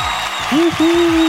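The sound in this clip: Applause breaks out for a prize winner, a brief burst of clapping and crowd noise joined by a loud electronic tone that slides upward and then holds steady.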